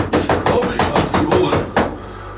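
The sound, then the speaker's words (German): Excited, frantic pounding on the door of a small castle: a quick, even run of many heavy knocks, loud and without voices, ending with one last blow after a slightly longer gap. “rannte er sofort zum Schlösschen zwischen den beiden Gipfeln hinauf und polterte aufgeregt gegen die Tür.”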